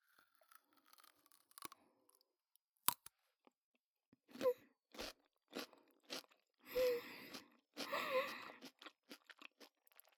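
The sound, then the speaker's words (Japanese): Crisp crunching bites and wet chewing of a fresh cucumber after dipping it, many quiet intermittent crunches separated by near silence, growing denser and juicier toward the middle and end. “次はきゅうりいただきます。つけて、”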